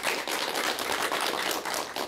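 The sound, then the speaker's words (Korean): Audience applause at a question-and-answer talk, a loud, dense clatter of many hands with a gently pulsing rhythm, continuing throughout without speech. “여러분 박수 부탁드릴게요.”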